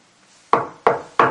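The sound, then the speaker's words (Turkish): Three sharp knocks on a wooden door, evenly spaced about a third of a second apart, each a crisp, hollow thud with a short decay, heard alone without talk. “Kapıya vurdum. Üç defa. Bir. İki.”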